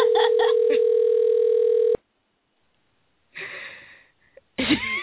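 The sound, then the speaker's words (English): A telephone ringback tone on an outgoing call: a steady, loud electronic tone holds for about two seconds and cuts off, followed by silence and then people talking. “No, answer your phone.”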